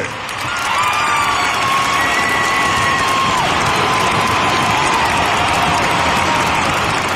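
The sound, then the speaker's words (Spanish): Loud audience cheering and applause greet a performer introduced at a Latin music event. The crowd builds within the first second into a dense, sustained roar of clapping, shouts and whoops that holds steady to the end. “recibamos con un fuerte aplauso a Isidro Infante.”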